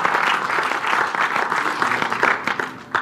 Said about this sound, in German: Applaus